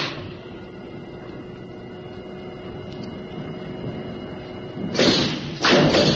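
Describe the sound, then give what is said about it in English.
An airlock hatch on a service rocket thuds as someone passes through it: a low, steady hum runs throughout, then two heavy, loud thumps land close together near the end. “Right, I'm going through the airlock now.”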